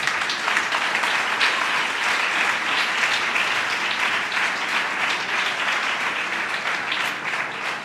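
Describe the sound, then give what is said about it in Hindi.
Loud, sustained applause from a church audience: dense, steady clapping that fills the whole stretch without a break or fade. “I am यीशु के लिए जोरदार तालियां।”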